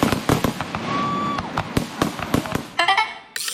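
Fireworks sound effect: many sharp crackling bangs and pops in an irregular, busy rhythm, with a brief steady whistling tone early on and a denser crackling flurry near the end.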